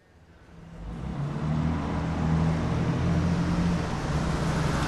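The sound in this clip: A car engine rumbles as the car drives, swelling over the first second into a steady, fairly loud low drone that holds to the end.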